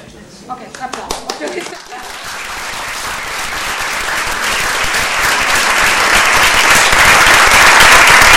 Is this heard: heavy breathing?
no

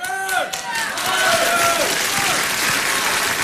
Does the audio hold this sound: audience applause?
yes

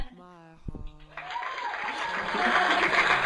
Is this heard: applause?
yes

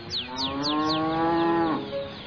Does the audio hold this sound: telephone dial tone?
no

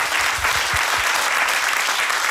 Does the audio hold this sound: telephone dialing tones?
no

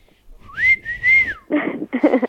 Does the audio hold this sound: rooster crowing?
no

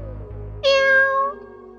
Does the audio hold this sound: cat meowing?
yes

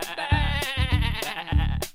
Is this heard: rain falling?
no

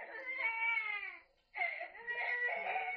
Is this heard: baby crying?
yes

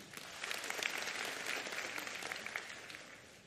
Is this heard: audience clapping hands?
yes

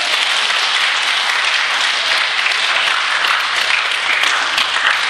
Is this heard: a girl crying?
no

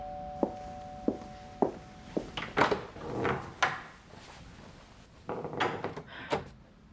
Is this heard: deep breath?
no

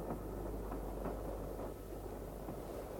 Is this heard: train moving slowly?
yes

